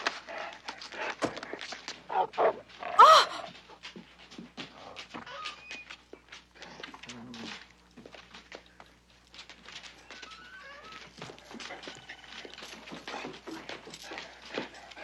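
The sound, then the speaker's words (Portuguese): A dog whimpers and pants among many short, sharp clicking transients, with one louder burst early on and a fairly steady, moderate level throughout. “O que é isso? Um cachorro. Você não pode trazer um cachorro pra cá.”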